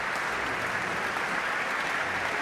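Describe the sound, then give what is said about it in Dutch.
An audience applauds the conductor after an orchestral piece, a steady, dense wash of clapping that holds at an even level throughout with no voices on top. “En u hoort het applaus voor dirigent Tiani Lou.”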